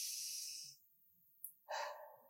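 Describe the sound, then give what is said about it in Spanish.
Slow breathing from a person showing a way to fall asleep: two long, airy breaths separated by a quiet pause with a brief click between them, moderately loud and with no talk. “Primero, Tienes que cerrar tus ojos y tienes que respirar lento.”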